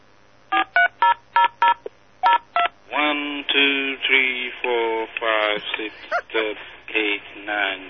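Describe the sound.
Telephone DTMF tones dial a number over a VoIP line with about ten short, crisp beeps in a quick, uneven rhythm. A voice then speaks over the phone line.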